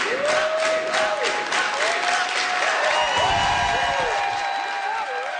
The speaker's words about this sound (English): As spokesperson Ruga Gazelle took to the mic, she was welcomed by a team of full of candidates standing behind her, chanting her name.